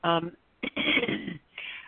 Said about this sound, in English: sorry, I have allergies, so I have a little bit of a cough here.